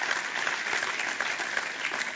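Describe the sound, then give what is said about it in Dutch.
Dense, steady applause from an audience, with many claps blending into an even, continuous wash at a moderate level throughout, with no voices rising above it. “Ja, je mag ervoor klappen voor de grootheid van God.”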